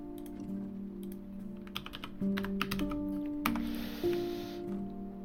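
Typing on a computer keyboard: irregular bursts of light clicks and taps, fairly faint, over a steady tonal hum.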